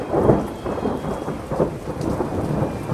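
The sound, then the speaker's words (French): Torrential rain pours down in a thunderstorm over an outdoor music festival, a steady hiss of heavy rain with deep rolling thunder swelling and fading underneath. “Lorsqu'il quitte la scène, l'orage éclate. Une pluie diluvienne, pire que toutes celles qui ont précédé, s'abat sur les festivaliers.”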